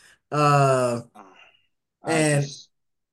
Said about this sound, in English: Go ahead. What do you want to say? He's over there groaning.